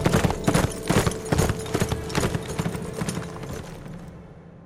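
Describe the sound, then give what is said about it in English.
Horse hooves clip-clop in a steady, rhythmic trot as a rider rides on. The hoofbeats are many, sharp and fairly loud, and fade away toward the end. “With that, she rode on toward Taurus Bend, her mind a whirl.”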